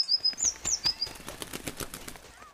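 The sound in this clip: A sparrow's wings flap rapidly in flight, making a quick run of many soft, rhythmic fluttering beats, with a few high chirping notes near the start.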